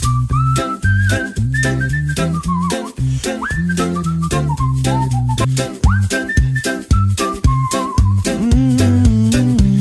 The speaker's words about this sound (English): And the lead is a whistle. Sounds like this on Rock School.